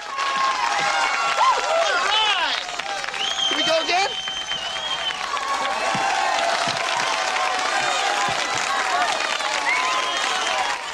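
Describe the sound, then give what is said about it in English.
Applause and cheering from a crowd gathered at a yacht club, where a motorboat has crashed onto the first floor, with two people clapping together. Loud and sustained throughout, dense clapping mixes with many overlapping voices shouting and whooping. “Zed and Sweet Chuck applaud together.”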